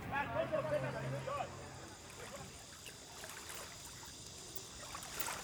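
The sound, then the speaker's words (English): Ocean tide washing in on a beach, a faint, continuous swishing hiss of moving water that stays soft and steady throughout. “The tide is swishing in. I think I'll go to the beach and swim.”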